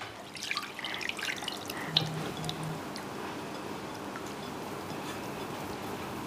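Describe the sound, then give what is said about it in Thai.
Salted water drips through a strainer as soaked fish is squeezed dry by hand. A few light drips and trickles fall in the first two seconds, then a faint, steady watery hiss continues alone. “เอากระชอนกรอง เอากระชอนค่ะ บีบเอาน้ำเกลือออก”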